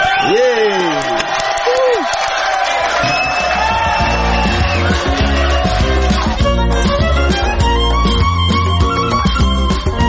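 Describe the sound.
A loud crowd cheers in honour of a person, with two rising-and-falling whoops early on, then a continuous wash of shouting and noise carried over sustained tonal sounds.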